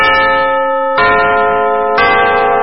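Chime of a radio station's eleven o'clock morning time signal: bright, sustained ringing tones with a few fresh strikes about a second apart, heard alone without talk.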